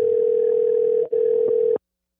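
A telephone dialing tone sounds as a steady, loud, single-pitched hum while a call is placed, broken once by a very short gap before it continues and then cuts off abruptly.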